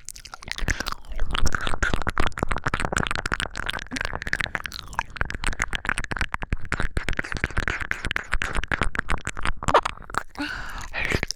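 Close, wet chewing of food called little ears, a dense stream of rapid crunchy clicks and moist mouth sounds that runs steadily for about eleven seconds with only brief pauses.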